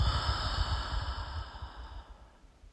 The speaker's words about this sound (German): Nimm einmal einen tiefen Atemzug durch die Nase ein. Und lösen durch den Mund aus.